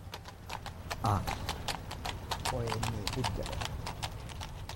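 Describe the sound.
Hooves clip-clop as a horse-drawn carriage arrives, a rapid, even run of many hoofbeats continuing steadily while people talk over it.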